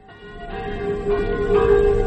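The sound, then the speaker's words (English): Church bells ring from a small village church in Normandy, near Caen, with several overlapping strokes whose resonant tones hum and build steadily in loudness. “The curé of this little Normandy church, 2 or 3 miles from Caen, wants me to say how sorry he is about these bells.”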